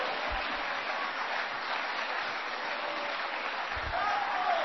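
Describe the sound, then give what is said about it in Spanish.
Church audience clapping in praise during a sermon, a dense and continuous wash of applause with a couple of low thumps, holding an even level throughout. “¡Dele palmas al Rey! ¡Los que están vivos a su nombre! ¡Dele palmas a Cristo, hermano!”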